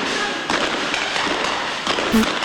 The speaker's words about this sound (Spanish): Las explosiones en vivo, tiroteos en vivo. Mirá, tira. Los tiroteos están controlados, las explosiones están controladas.